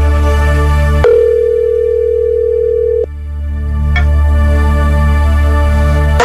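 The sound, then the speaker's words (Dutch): Telephone call tones as a radio quiz dials a listener: one steady beep lasting about two seconds over a continuous droning background, followed later by a sharp click. “We gaan gewoon bellen met de eerste die iets instuurt.”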